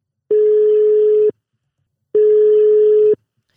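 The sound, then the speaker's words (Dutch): A telephone ringing tone on an outgoing call: two steady, single-pitched beeps of about a second each, separated by a short pause. The tones are loud, with no voices. “We gaan bellen met Doreen Ottens.”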